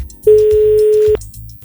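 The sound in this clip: A telephone tone sounds while a call to a radio contest winner is placed. One steady mid-pitched tone holds for just under a second, with faint low background sound before and after it.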